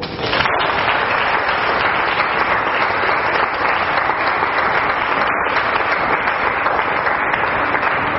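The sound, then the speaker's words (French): Applause from a church audience praising God during a French-language worship service: dense, loud clapping that holds steady and unbroken for the whole stretch. “Oh, acclame Dieu pour toi.”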